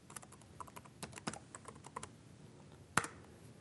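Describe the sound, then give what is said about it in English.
A password is typed on a PC keyboard: a run of many light, uneven keystrokes clicking, with one sharper, louder key press near the end. “So first it'll ask me to enter my password for this PC. So I enter my password.”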